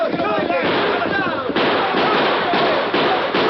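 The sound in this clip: Several sharp gunshots crack out during a horseback chase, following a stretch of shouting voices, each shot a short loud burst.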